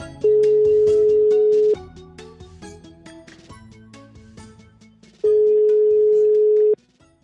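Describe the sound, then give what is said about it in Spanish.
Ringback tone of an outgoing telephone call: two long, steady, even-pitched tones, each lasting about a second and a half, separated by a pause of several seconds over quieter background sound. “Truquem al Miguel.”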